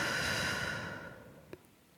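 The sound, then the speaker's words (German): A deep, slow breath during a relaxation exercise: a long, soft, airy rush of breath that gradually fades away, followed by a faint click in near silence. “schließe die Augen und atme tief durch die Nase ein und durch den Mund aus.”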